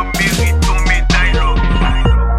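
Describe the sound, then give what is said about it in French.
A telephone rings with a loud musical ringtone, a bright melodic run of notes that plays continuously, with no voices over it. “Telefon map sonne la ay.”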